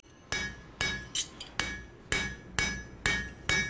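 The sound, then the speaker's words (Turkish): Bright, ringing hammer blows on silver as it is hand-forged into a simple spoon. About eight loud strikes fall in a fairly even rhythm, with one fainter tap among them, and each hit carries a sustained metallic ring. “Onu döverken sesini dinleyip hareket ediyor. Gümüş ona yeterli sertliğe geldiğinde haber veriyor.”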